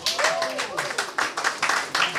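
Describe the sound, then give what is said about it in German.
Concert audience clapping in a steady shared rhythm, about four claps a second, with a voice calling out briefly near the start. “Applaus für Sigi!”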